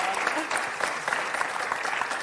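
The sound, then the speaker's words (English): Audience applause for a stand-in host at a live show: dense, continuous clapping at an even, moderate level throughout, with no clear voices. “Let's give Kitty a round of applause, shall we?”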